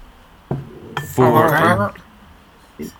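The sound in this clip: Glass clinks and a short sharp burst as a bottle of amber lager, 5.1 percent ABV, is cracked open, followed by a brief stretch of voice and a final light knock.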